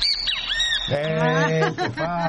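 Summer bird calls from a species known as the ventereo: a few thin, high chirping notes, then a longer, lower buzzy call with rich harmonics and some warbling toward the end.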